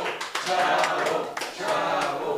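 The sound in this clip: Applause from a small group at a festive holiday gathering, a moderately loud rustle of clapping that swells, dips briefly and resumes, with voices mixed in.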